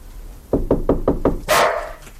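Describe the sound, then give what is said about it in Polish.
A dog barks in a home, giving a quick run of five sharp, evenly spaced barks that are loud and alone, with no voices. “Tylko niech już nie szczeka. Nie szczeka.”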